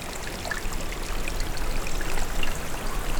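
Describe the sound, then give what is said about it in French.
A small trickle of flowing water among late-summer greenery: a soft, continuous babble with faint droplet plinks, quiet and steady, with no voices. “Et où s'écoule délicatement un petit filet d'eau.”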